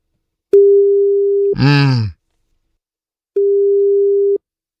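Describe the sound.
A telephone tone sounds after a call is hung up: two steady, level beeps of about a second each, separated by a pause with a brief voice-like sound near its start.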